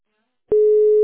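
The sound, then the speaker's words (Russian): A steady telephone line tone while a call is transferred. It begins abruptly after a brief silence and holds one constant, loud, mid-pitched note to the end. “Сейчас переключу вас.”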